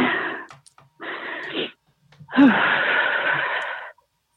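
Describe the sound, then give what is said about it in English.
Heavy, labored breathing: three long, rasping breaths separated by short pauses. The last breath is the longest and strongest, and no one speaks. “Sorry, I'm just trying to breathe.”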